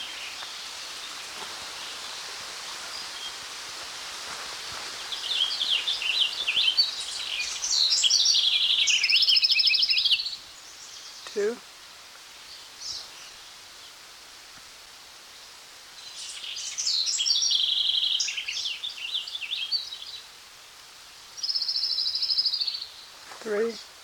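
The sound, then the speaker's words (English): Song of an orange-crowned warbler of the orestera subspecies: three bouts of high, buzzy trilling separated by quieter gaps, with a few faint clicks in between. “An orange crown warbler of the subspecies Arresta.”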